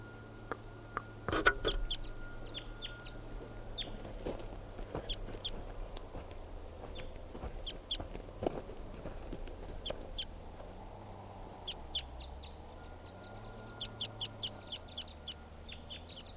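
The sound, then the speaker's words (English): A deep-voiced wild bird calls in the early morning: low, hollow hoots rise and fall in slow swells beneath scattered sharp chirps and clucks from other birds, all fairly faint across a long stretch. “Very deep voiced wild bird.”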